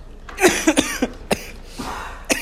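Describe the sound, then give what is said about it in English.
Several harsh, dry coughs in short irregular bursts. They are loud and sharp against a quiet background, with uneven gaps between them. “sorry, you just got to get used to the cough. It's part of my life now.”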